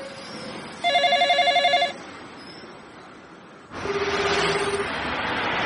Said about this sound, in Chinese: 电话响了，